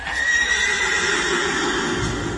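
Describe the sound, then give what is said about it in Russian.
A horse neighs as it arrives at a feast inside a house, giving one long, loud, shrill whinny that carries through the whole clip with no talk. “лошадь сама придет к бургомистру”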